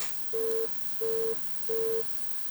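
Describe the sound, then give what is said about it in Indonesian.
A dropped WhatsApp phone call gives a line tone of three short, identical, steady mid-pitched beeps. They are evenly spaced and sound alone over faint hiss. “Ini ada dari penelpon WhatsApp. Halo, assalamualaikum. Ini terputus ki.”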